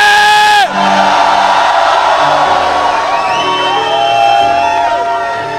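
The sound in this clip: A church audience shouts together with a hand on one another's shoulder: loud, overlapping voices in sustained cries that break off briefly and then swell again, some drawn-out tones gliding downward.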